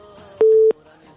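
A single busy-signal beep on a telephone line after a dropped call: one short, steady, mid-pitched tone lasting about a third of a second, then fading back to faint background sound.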